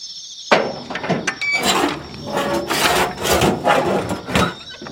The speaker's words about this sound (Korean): 기분 나쁜 쇳소리를 내며 대문이 열렸다.